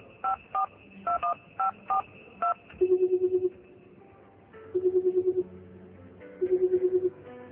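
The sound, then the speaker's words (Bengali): Keypad tones of a phone number being dialed on a mobile phone: a quick series of short, evenly spaced beeps, then three pulsed bursts of ringing tone separated by pauses. “কিছুক্ষণ কি যেন ভাবলেন আনিস সাহেব, তারপর phone করলেন তার বন্ধু মাসুদের মোবাইলে।”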